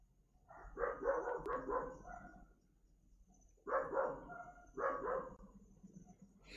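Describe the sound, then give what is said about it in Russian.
Dogs barking back and forth at each other in faint bursts of quick barks, grouped into a few clusters separated by pauses, with no talk over them. “Собаки, говорю, как обезьяны, одна залаяла, и все, и они начинают теперь перегавкиваться.”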